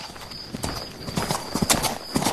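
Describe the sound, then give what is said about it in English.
Hooves of a mare being ridden clip-clop in a steady series of sharp, fairly loud knocks at a walking rhythm, with some soft rustling between the steps. “Ride this beautiful mare.”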